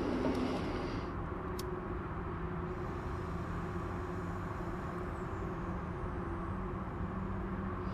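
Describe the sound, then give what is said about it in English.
Street traffic noise outside a bookstore in San Francisco: a steady, low, broad rumble of vehicles that continues unbroken throughout, with no voices. “City Lights Bookstore, San Francisco, with some traffic noise which may punctuate the poems.”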